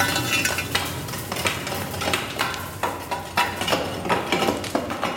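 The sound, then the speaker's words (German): Firewood logs are rearranged through the lower hatch of a large, nearly three-metre-tall, whitewashed brick oven: many wooden knocks, scrapes and clattering shuffles in an uneven, steady run, with no talk. “Und ich muss jetzt ein bisschen das Holz neu arrangieren, damit wir einen sauberen Brennprozess haben.”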